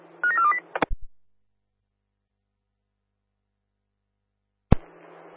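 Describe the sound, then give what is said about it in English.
A quick run of telephone DTMF dialing tones plays as a few stepped beeps, followed by sharp clicks, a long silence, then another click and a short burst of hiss. “dialing away.”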